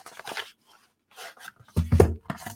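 Tearing open the paper packaging box of a Smok ACRO vape device: a few short, noisy ripping and rustling bursts separated by brief quiet gaps, the last burst loudest.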